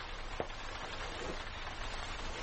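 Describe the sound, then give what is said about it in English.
Persistent rain, a dense, even hiss of falling drops that runs unbroken throughout at a steady level, with no voices. “It has been raining for nearly 4 hours.”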